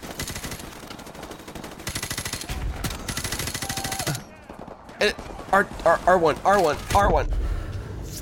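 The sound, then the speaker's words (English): Gunfire in a video game, rapid automatic bursts rattling in quick runs, then a pause before a few more shots, with people talking throughout. “It's just push the trigger. There you go. Just shoot again. There you go. One more. To the right. To the left, they're shooting you.”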